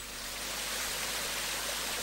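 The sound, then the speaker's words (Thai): Water gushes from a broken bathroom tap, a continuous loud rushing hiss that stays steady without breaks and with no voices. “น้ำพุ่งจากก๊อกออกมาเลยนี่เปียกหมดเลยครับ”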